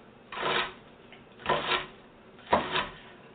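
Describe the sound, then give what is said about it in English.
A knife dices a white onion on a cutting board in three separate crunchy, rasping strokes with short pauses between them. No voices are heard. “one white onion. All right. So I'm just going to go ahead and continue to dice.”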